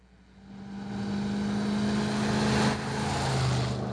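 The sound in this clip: A car whizzing by on a road: engine roar swells, peaks, then drops in pitch as it passes and fades, with no voices.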